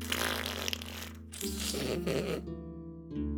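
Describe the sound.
A mouth fart noise, a voice imitating flatulence with buzzing lips: low, rough, sputtering and sustained for about three seconds with brief breaks, loud and with no talk over it.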